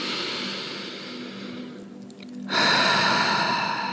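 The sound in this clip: A deep breath in during a guided relaxation exercise. A soft, airy hiss dips briefly, then swells into a louder, steady rush of inhaled air that continues to the end.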